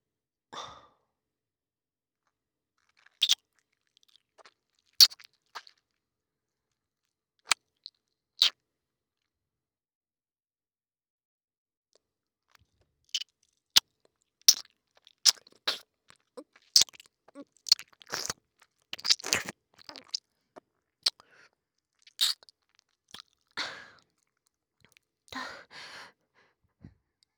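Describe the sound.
Wet ear-licking mouth sounds from an ASMR recording: sparse, isolated smacks and clicks at first, then denser clusters of crackly, wet smacking and lip noises.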